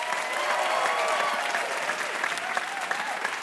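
Audience applause for game show contestants walking onto the stage, a dense, steady wash of clapping that holds at an even loudness throughout.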